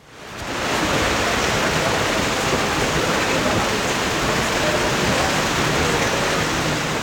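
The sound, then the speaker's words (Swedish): Rain falls on a white umbrella at a rain-soaked golf tournament in the Netherlands, a dense, even hiss that swells in over the first second and then holds steady, with no distinct drops standing out. “Ja, men framförallt kanske har det varit rätt blött kan man säga. Så här har det låtit under det vita Radiosporten paraplyt idag.”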